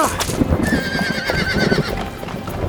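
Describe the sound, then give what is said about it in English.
A horse whinnies in a long, wavering high cry over the steady clip-clop of hooves, suggesting a horse-drawn carriage with a sturdy black stallion riding alongside, the hoofbeats continuing after the neigh fades. “Princess Ripley traveled by horse-drawn carriage with the gallant Sir Cyborg riding alongside them on his sturdy black stallion”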